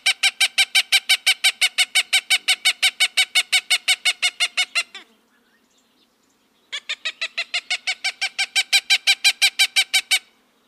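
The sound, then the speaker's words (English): Cooper's hawk calling in two long runs of many rapid, evenly spaced, harsh nasal notes with a short silent gap between them. The calls are loud and steady, with no other sound. “the second is that of its cousin, the Cooper's hawk. Do you notice how much bigger the call sounds from the Cooper's hawk?”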